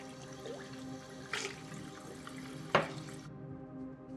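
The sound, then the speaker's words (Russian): Leftover water from a drinking glass is poured out into a bathroom sink. It is a faint, continuous splashing rush with a couple of brief louder splashes, and it stops abruptly near the end. “Склонив голову, он снова пьет. Оставшуюся воду выливает в раковину.”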